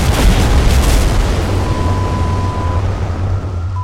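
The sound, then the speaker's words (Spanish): A bomb goes off with a loud, broad roaring blast that slowly dies away, and a thin, steady high ringing tone sets in as the rumble fades. “Miguelito, ya no juegues con tu bomba sin avisarnos antes de...”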